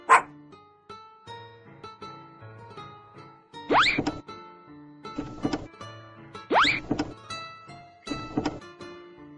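A puppy barking in a few sharp, high yips spaced several seconds apart, each rising quickly and fading, with quieter tonal sounds filling the gaps between them.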